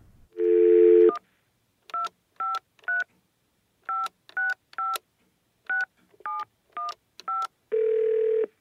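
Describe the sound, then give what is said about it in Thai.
Push-button telephone tones as a number is dialed to order a video game by phone: about ten short, evenly pitched beeps in groups of three, three and four, framed by a steady, longer tone before and after. “ขอฉันโทรสั่งซื้อก่อนนะ”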